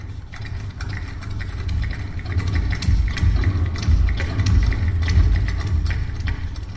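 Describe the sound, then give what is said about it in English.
Steady mechanical rumble from the very first engine Henry Ford built, running continuously with a dense low throb and quick ticking clatter that grows slightly louder after the opening seconds, with no voices. “Well, it's the sound of the very first engine that Henry Ford ever built. That was recorded by the composer Todd McCover, who's also a professor at the MIT Media Lab.”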